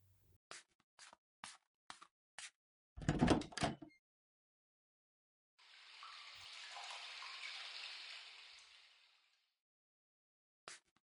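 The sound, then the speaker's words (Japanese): Hot water runs into a bathtub as a steady, soft hissing rush that lasts several seconds and then fades out. A few sharp clicks and a brief clatter come before it, and a single click follows. “お風呂入ろっか。お湯張りしてくるね。”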